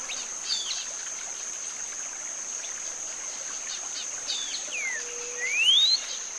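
Faint birdsong in short, thin, whistled phrases, each with a questioning lilt; one phrase ends in a clear rising whistle. A steady, high insect-like hiss runs underneath throughout.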